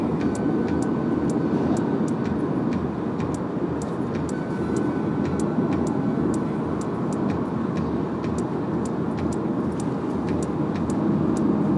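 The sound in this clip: An old car's engine running while driving, a steady, loud droning rumble mixed with road noise that holds even throughout, with faint, sharp ticks recurring over it.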